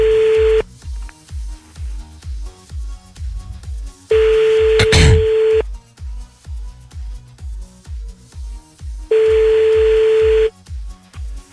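Telephone ringback tone while placing a call: three long, steady tone bursts spaced evenly apart, over a continuous rhythmic low beat of music.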